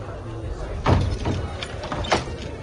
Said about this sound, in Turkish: Kapı kapandı.